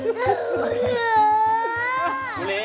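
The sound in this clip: A young child cries loudly in long, wavering wails and sobs, with an adult voice talking over the crying.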